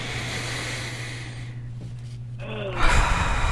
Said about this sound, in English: In 3, 2, 1, all the way in through the nose.